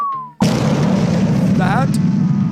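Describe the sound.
An explosion sound effect bursts in suddenly after a brief thin tone. A loud, dense, rumbling roar follows and carries on without a break to the end.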